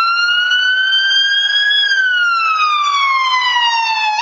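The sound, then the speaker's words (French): An ambulance siren passes along a street as a loud, steady wailing tone rich in harmonics. Its pitch creeps upward and then slides steadily lower as it goes by, with no voices. “l'effet Doppler, c'est celui qui est responsable de l'effet auditif quand une ambulance passe dans la rue.”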